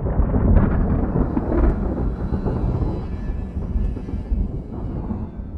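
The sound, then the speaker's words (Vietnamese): Deep thunder rumbling loudly and continuously for several seconds in a storm with heavy rain, easing slightly toward the end. “Theo sau là một tiếng sét rạch ngang trời.”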